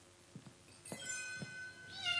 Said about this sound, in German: Das klingt ja ganz armselig. Da muss ich direkt nachschauen. Die Katze muss vor der Tür sitzen.